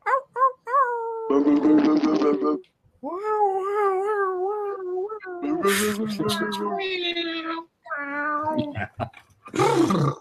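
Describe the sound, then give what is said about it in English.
Several people imitate animal noises over their microphones, mostly cat-like meows, yowls and howling cries. The many wavering voiced calls overlap and follow one another in quick bursts, separated by short pauses. “So guys, with your microphones turned up, make some noise, make some animal noises, send some love.”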